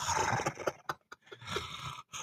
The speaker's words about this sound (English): Like, why the fuck he be breathing so? I'm a big dude. It sounds like he got indigestion or something. I don't know. Like, he breathing in pain.